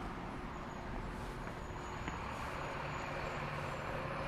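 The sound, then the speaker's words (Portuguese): A city public-transport bus passing alongside on a street gives a steady, broad engine and road rumble, fairly faint, with no distinct swell or other clear sounds. “vamos passar aqui do lado de um ônibus que vem vindo”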